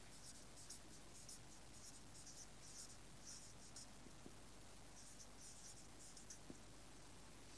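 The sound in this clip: Faint scratching of a pen writing notes, a steady run of short strokes at an even, unhurried pace, with no voices.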